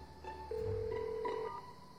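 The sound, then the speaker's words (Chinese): A telephone rings on an outgoing call: a faint, steady tone lasting about a second, with softer tonal traces before and after it. “他迫不及待地给许亚打了个电话。”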